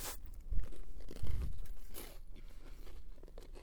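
Someone chews a large, very crispy, crunchy piece of food. Two heavy, loud crunching bites come early, then steadier, softer crunching follows.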